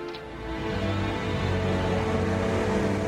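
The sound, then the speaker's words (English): The engine of a large black truck hums low and steady as it turns a corner, a continuous droning rumble with no voices. “A large black truck turns a corner.”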